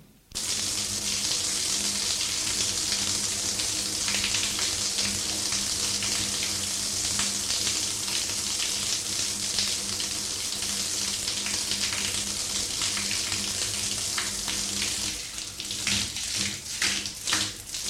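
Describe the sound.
Water runs steadily from a bathroom tap as someone washes, a continuous splashing hiss that grows more uneven and spattery near the end.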